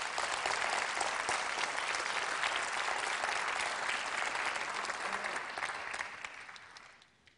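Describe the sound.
Audience applause welcoming a speaker's wife: steady, dense clapping that holds its level, then fades out toward the end.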